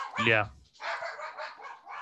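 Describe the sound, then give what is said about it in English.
An angry dog barks once, sharp and loud. A longer stretch of rough, noisy sound follows. “dog is angry”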